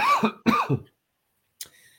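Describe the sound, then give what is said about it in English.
A few rough, throaty coughs come in quick succession, mixed with throat clearing, followed by a pause and a brief faint click. “sorry, I'm coughing here.”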